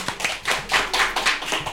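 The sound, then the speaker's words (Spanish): Quick, crisp hand clapping from a game-show studio audience, dense overlapping claps in a steady patter with no talk over it. “Bravo, un aplauso, por favor.”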